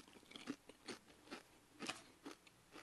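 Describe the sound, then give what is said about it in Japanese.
Ranch-flavoured Pringles potato chips are bitten and chewed. Faint, crisp crunches repeat in a steady rhythm, with quiet gaps between the bites. “じゃあいただきます。プリングルスのランチ味いただきます。”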